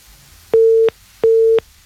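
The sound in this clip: Busy tone after a phone call drops on a radio call-in line: two steady, mid-pitched beeps of about a third of a second each, evenly spaced, with a third just starting, loud over a quiet line.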